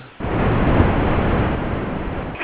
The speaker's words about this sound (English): Yeah, I was wondering what was going on over there. Yeah, it's a car wash.